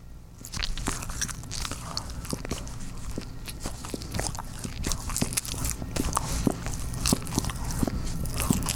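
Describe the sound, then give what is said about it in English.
Crisp biting and chewing of a mini bagel: many sharp, crunchy bites and smaller mouth sounds follow one another in an uneven, steady rhythm, fairly loud and close, with no talking. “He likes the sound of me eating a mini bagel.”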